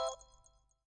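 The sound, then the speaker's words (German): A voicemail beep tone sounds once: a short, bright electronic tone with clear harmonics that starts at full strength and then decays away in under a second, leaving silence. “Bitte hinterlassen Sie Ihre Nachricht nach dem Tonsignal.”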